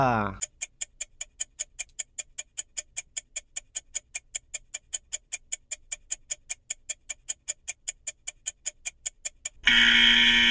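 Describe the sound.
A countdown timer clock ticks during a guessing quiz: many steady, evenly spaced crisp ticks, several per second, running alone with no talk after a brief opening tone.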